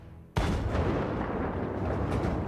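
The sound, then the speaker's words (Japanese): A tank cannon fires in a video game demo: one sudden, loud boom that turns at once into a heavy, sustained rumbling roar lasting to the end. “こんな感じで戦車が動いてドカーンみたいな感じで”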